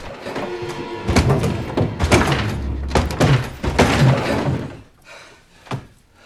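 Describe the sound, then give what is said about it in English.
Heavy, irregular thumping and banging as someone tries to force open a front door, with repeated dull thuds and rattling knocks of varying loudness that fade toward the end. “Someone is trying to get through the front door.”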